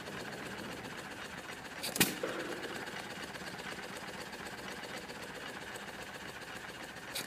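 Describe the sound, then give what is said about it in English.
A small old stationary engine with a flywheel runs at a steady, even hum with one sharp knock near the start, otherwise constant and unchanging throughout. “And look at that flywheel go. A motor like that could run a corn sheller, it could run a little pump, it could move silage on an auger.”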